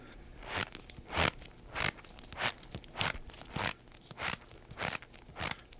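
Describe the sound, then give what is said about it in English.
Crunching squeaks from a box of cornstarch kneaded by hand to imitate footsteps in hard snow, a steady series of soft crunches at walking pace, heard alone. “That's right, walking through snow. That's a plain old box of cornstarch, and I'm just kneading it with my hands to simulate walking in hard,”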